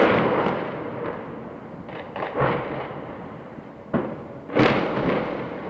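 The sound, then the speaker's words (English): Explosions from a missile strike on a tower building in Gaza City: a few sharp, heavy booms burst out over a continuous broad, rumbling roar that swells and fades. “This is a missile attack on Palestine Tower, right in the middle of Gaza City.”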